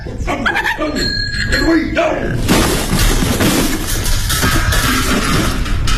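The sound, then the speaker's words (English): Short yelps and whimpers from a small dog, an Aberdeen Terrier, rise out of a loud, busy commotion that runs the full length, with voices present throughout. “You might have scared my poor little dog out of his wits hurling yourself around like that.”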